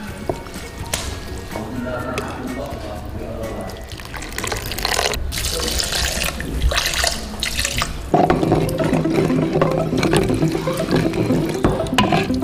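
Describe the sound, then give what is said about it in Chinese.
Boiling water poured over cooking ingredients to draw out their juice, a steady splashing, running stream that grows fuller and louder partway through. “开水浇淋取汁，提鲜去腥。”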